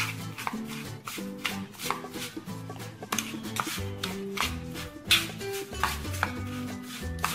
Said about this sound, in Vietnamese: Mình cho vào cùng với dừa và mình ướp, mình trộn đều.